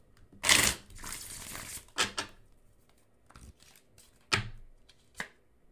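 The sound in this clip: Tarot cards are shuffled and pulled, giving a few soft, papery riffling bursts and brief slaps separated by quiet gaps, with no talking.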